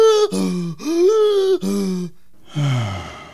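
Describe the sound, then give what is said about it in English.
A voice takes several exaggerated deep breaths, each one voiced and groaning with swooping pitch. Short gaps separate the breaths, and a lower, falling sigh comes last. “Hey, take a few deep breaths like this.”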